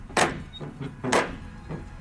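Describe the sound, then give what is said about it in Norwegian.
Knocking on a door with a large brown metal ring knocker: four dull, booming knocks, two loud strikes alternating with two softer ones, with no talk. “Nå skal jeg banke på.”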